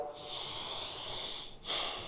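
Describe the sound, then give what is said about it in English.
A deep breath, heard as a long steady airy hiss, then after a brief break a second, stronger rush of air. “Take a breath.”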